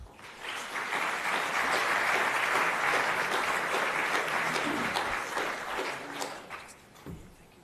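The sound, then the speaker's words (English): An audience claps in sustained applause to welcome two keynote speakers at a conference session. The dense clapping stays loud and steady for several seconds before thinning out and fading near the end. “But please just give them a, a hand of welcome.”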